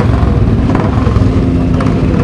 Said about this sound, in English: More cars, a stream of cars going past, and the first of the motorcyclists are looking out for some of the interesting bikes that have been brought out as a tribute to Jeff Duke, the Nortons and the like. There's an old Rudge going by,